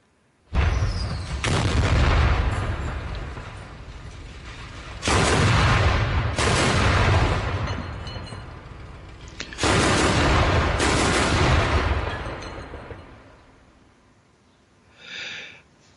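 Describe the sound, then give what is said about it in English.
Gunfire and artillery booms from heavy street fighting in central Mariupol, with armored vehicles firing: three long, loud barrages of dense, rumbling fire, separated by brief lulls, then a shorter, fainter burst at the end. “A video shows heavy fighting and large scale destruction in Mariupol, a port city on the Azov Sea, as active fighting in the center of the city continues.”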